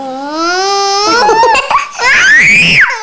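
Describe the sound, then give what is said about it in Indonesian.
A young child cries in loud, sustained, high-pitched wails with a wavering pitch. The crying breaks into short sobbing catches midway, then swells into a long rising wail that drops off at the end. “Ngapain ini? Nangis kena.”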